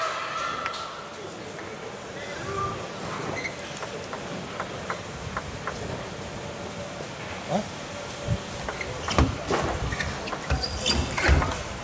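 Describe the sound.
A professional table tennis match: a rally that includes a side-cut shot, its sharp ball strikes ticking at an irregular pace and growing louder toward the end, with commentary talking over the play.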